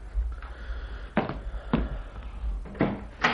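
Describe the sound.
A door is handled and opened at home, with a few dull clunks and thuds at uneven intervals over a low, steady hum.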